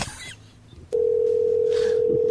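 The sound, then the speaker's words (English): A telephone network error tone: a steady, single-pitched hum switches on abruptly after a short stretch of quieter background and holds loud and unbroken to the end. “Oh, phone network error.”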